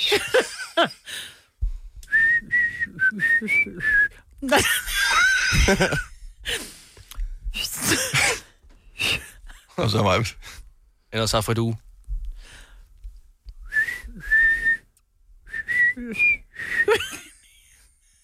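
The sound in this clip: Someone whistles a pop song melody in short, high, wavering phrases, in two separate stretches. People talk and laugh between and around the whistled bits.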